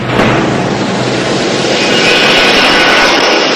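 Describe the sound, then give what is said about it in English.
A plane coming in to land at night makes a loud, steady roar of jet engine noise. A faint high whine emerges partway through, and no voices are heard. “The silhouette of a plane coming into land across the moon.”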